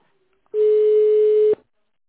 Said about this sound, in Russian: Вы на кнопки случайно не нажимаете? Писк.